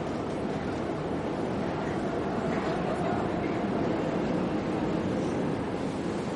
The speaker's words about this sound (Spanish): La escritora se baja del vagón y él la observa mientras el tren avanza.